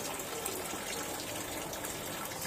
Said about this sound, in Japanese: はい、洗いました。わー綺麗。 水の音も入ってるはずね。